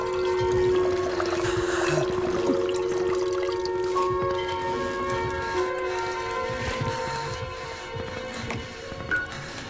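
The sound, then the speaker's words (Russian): Water poured from a flask into a washbasin, a steady trickling pour that eases off toward the end, set against a constant tonal background. “Выливает из фляжки воду в умывальник.”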